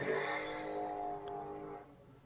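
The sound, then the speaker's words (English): A motorcycle passes in the background. Its engine gives a steady, droning hum with clear tonal harmonics that holds for nearly two seconds, then drops away and leaves faint noise. “That was a motorcycle in your background.”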